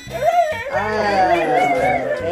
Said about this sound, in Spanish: Ay, los ladridos, pobrecitos.